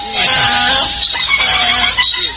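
A donkey braying is played as a sound effect, loud and harsh, with a wavering pitch that runs without pause through the whole clip.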